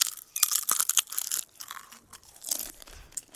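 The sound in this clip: Crunching of a paprika crisp topped with a piece of Kinderriegel chocolate bar and a pistachio, eaten like a small sandwich; many sharp, dry crackling bites and chews in quick clusters, loud and close, with no talk.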